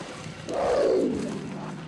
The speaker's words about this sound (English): The mountain lion jumps up onto the dirt road and walks towards him confidently.